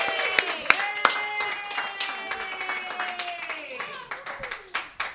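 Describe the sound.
An audience claps to welcome a guest onto a stage. Sharp, irregular claps pop through the whole clip over a drawn-out voice that fades partway through.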